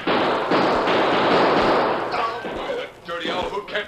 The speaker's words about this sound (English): My gun! Slug hit my gun!